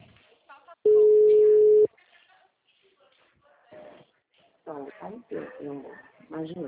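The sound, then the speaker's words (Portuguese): A telephone ringback tone sounds once as a steady mid-pitched beep lasting about a second, followed by near silence and then people talking. “Tá chamando.”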